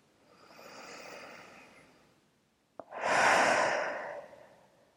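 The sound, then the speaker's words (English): Deep breathing during a guided breathing exercise: one slow, soft breath drawn in, a brief click, then a louder, fuller breath pushed out, with no talking. “And take another deep breath here.”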